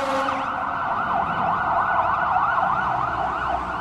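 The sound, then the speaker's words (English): A siren wails from an emergency vehicle leaving a fire station down the street, its pitch swooping up and down in rapid, regular cycles, loud and steady with no talk over it. “There's some of our public servants going to work right now. There's a fire station right down the street.”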